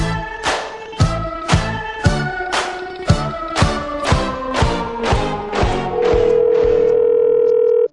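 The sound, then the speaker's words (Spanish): Telephone tones while placing a call: a quick run of evenly spaced, ringing pulsed tones gives way to a steady, sustained mid-pitched tone that holds for nearly two seconds before cutting off abruptly. “Bueno, estamos intentando contactar con la primera llamada de hoy. A ver si me lo cogen.”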